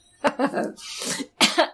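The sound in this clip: A person coughing after choking on their own saliva: several sharp, hoarse bursts, a longer raspy throat-clearing stretch, then two more quick coughs.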